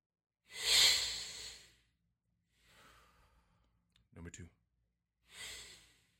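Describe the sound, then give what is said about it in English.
Deep breaths from a person: a few slow, airy breaths, the first loud and long, then softer ones, with a short rougher burst of breath among them. “Take 3 deep breaths.”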